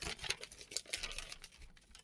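A small piece of paper torn off by hand, heard as faint, irregular crackling and ripping bursts over about two seconds.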